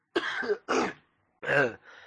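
A few harsh, throaty coughs come in quick succession, separated by short silences. The last cough is longer and more voiced than the others.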